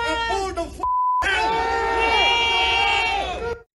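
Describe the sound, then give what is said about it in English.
Crowd cheering and shouting at the end of an anti-immigration protest: loud, overlapping voices run throughout, and a short steady beep tone briefly cuts in near the start. “That is what we hear to the cheers there at the end of the anti-immigration protest.”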